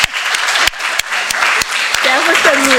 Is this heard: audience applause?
yes